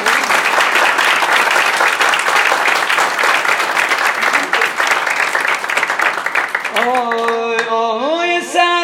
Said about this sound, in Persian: بزن دست رو.